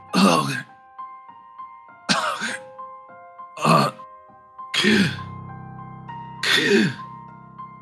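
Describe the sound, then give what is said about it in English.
A human voice imitates a dying man dribbling and gasping for breath: five rough, throaty gurgling bursts, each about half a second long, separated by pauses, with faint sustained tones lingering beneath. “he is going fast, and he's trying to say something. He's dribbling and going,”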